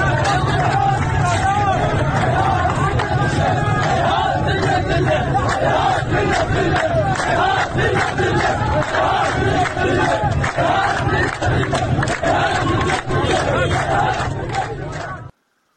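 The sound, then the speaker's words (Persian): A crowd of protesters chants the slogan Haihat minna al-dhilla outside the home and office of Ghasem Saedi, MP for Dasht-e Azadegan in Khuzestan. The dense, loud voices carry a continuous driving rhythm with clipped, repeated accents throughout. “در یکی از این ویدیوها نشون داده میشه که مردم معترض مقابل منزل و دفتر قاسم ساعدی، نماینده دشت آزادگان، تجمع کردند و شعار هیهات من نزل سر میدن. با هم بشنویم صدای اعتراضات رو.”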